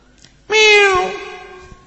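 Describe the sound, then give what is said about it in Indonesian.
A kitten that has wandered into a religious study gathering meows once, loud and clear, with a high, bright tone that falls slightly in pitch before fading away over about a second. “Ada kucing, Masya Allah. Dari mana ini kucing ini?”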